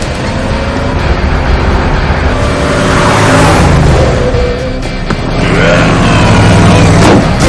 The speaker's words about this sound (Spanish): se gira extrañado hacia la calle, por donde se acerca un autobús escolar, conducido por Frank.